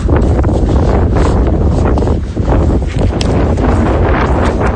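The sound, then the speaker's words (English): Strong gusting Patagonian wind blasts loudly against the microphone in a continuous, roaring buffet, with only a brief lull midway before the gusts surge again. “Now that is the first proper blast of Patagonian wind”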